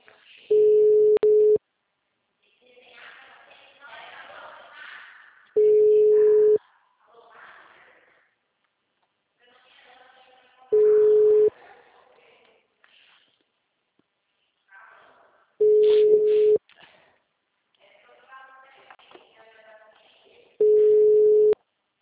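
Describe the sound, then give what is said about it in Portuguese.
A phone call ringing with no answer: five long, steady ringback tones at even intervals, with voices talking quietly in the gaps between them. “Atende, pelo amor de Deus. Oi. Eu tô ligando, mas ninguém tá atendendo.”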